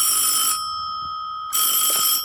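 A telephone rings twice: two bright, high-pitched electronic bell bursts, each about half a second to three quarters of a second long, separated by a one-second pause, steady and clear with no voices.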